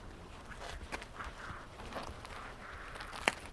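Footsteps on stairs: a few soft, irregular thuds and scuffs, faint against a quiet background, with one sharper step near the end.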